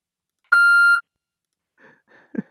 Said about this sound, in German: Immer wieder herrlich der Anrufbeantworter.